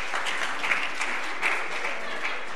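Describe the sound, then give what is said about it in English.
An audience at a church service gives a round of applause, a dense, even wash of many hands clapping that holds at a steady level throughout. “just have a round of applause”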